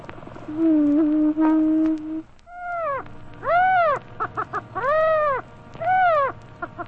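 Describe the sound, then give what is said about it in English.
Prairie chicken calls: a sustained low hooting tone, then several loud, arched, harmonic calls alternating with short clipped notes, clear over a quiet background. “Page 76, Prairie Chicken.”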